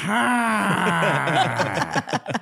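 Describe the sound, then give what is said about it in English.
A voice imitates loud snoring as a drawn-out, groaning, scream-like tone that slowly sinks in pitch, then breaks into short, choppy bursts. “my mom's snores are hardcore. You know what I'm saying? Like, it's literally like she's screaming. Yeah. But in snore form”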